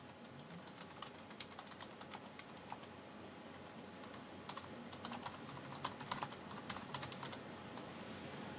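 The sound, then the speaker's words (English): Rapid typing on a computer keyboard, a steady stream of many quick plastic key clicks at a fairly quiet level, continuing without pause over a soft background hiss. “You all can hear me when I type. I type loudly.”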